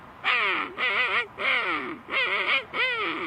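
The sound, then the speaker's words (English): A human voice imitates a king penguin call, with five loud, evenly spaced, wavering trumpeting calls, each a rich, nasal, undulating tone. “And next, the king penguin.”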